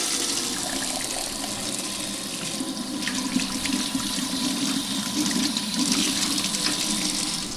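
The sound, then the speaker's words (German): Water running from a brass tap into enamel buckets during hand washing, a steady, fairly loud rushing stream with light splashing that continues without a break and has no talk over it. “wunderbare, schöne Anlage, also zwei äh, Emaille-Eimer und dann so eine schöne Messing, ein schöner Messinghahn. Da macht das Händewaschen doppelt so viel Spaß.”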